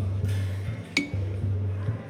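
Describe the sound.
Glasses clinking together in a toast: one bright, short ringing clink that rises out of a low, steady hum and fades quickly.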